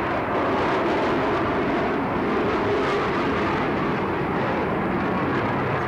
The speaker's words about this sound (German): Nur die Turbinengeräusche erinnern uns noch daran, dass die Staffel jetzt irgendwo über uns ist.